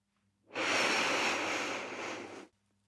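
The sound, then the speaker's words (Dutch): A single long breath drawn in through the nose during a guided breathing exercise (four counts in, six out): a steady, fairly loud breathy hiss lasting about two seconds, with no voices. “Adem nu 4 tellen in en 6 tellen uit. In door je neus.”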